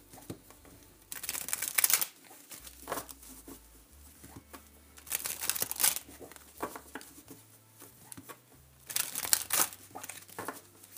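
Tarot cards being shuffled by hand: three bursts of crisp, papery riffling stand out, separated by softer rustles and handling noises, with no voices.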